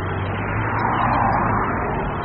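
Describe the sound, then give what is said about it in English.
Car traffic on a Los Angeles city street: a steady, dense roar of engines and tyres that holds an even loudness throughout, with no single vehicle standing out and no voices. “To slow climate change, California regulators say they need to end traffic that sounds like this.”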